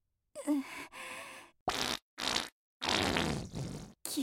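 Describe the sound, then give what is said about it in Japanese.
A loud, dirty-sounding fart comes as several raspy, sputtering bursts of uneven length, separated by short silences. “汚い音でおならしたのが私って、もしかしたら怒られちゃうかも。”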